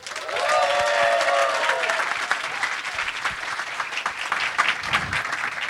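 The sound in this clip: Audience applause welcoming three design guests onto a panel at a design conference, a dense, steady clapping that fills the whole clip and stays loud, with crowd noise mixed in.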